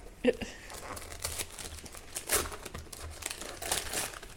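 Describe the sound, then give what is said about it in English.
Birthday wrapping paper is torn off a present with many crinkling, rustling and ripping bursts, the louder rips standing out against a steady crackle. “Don't know if you wanted to keep this, so I'm just going ham. It's actually really pretty birthday wrapping.”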